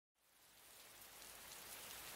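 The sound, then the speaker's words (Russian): Rain starts suddenly, with large drops drumming on a stretched tarpaulin and on boxes and barrels. The dense hiss begins after a moment of silence and swells steadily louder. “Снова пошел дождь. Крупные его капли разбудили спящие лужи, забарабанили по натянутому брезенту, по многочисленным коробкам и бочкам.”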